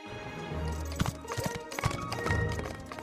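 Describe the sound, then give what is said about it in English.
Hooves of horses galloping along a dirt path, a quick irregular patter of clip-clopping beats mixed with music playing throughout. “They gallop down it.”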